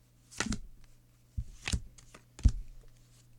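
Playing cards are shuffled and dealt for a game of bridge, three short, crisp riffling bursts separated by quiet gaps.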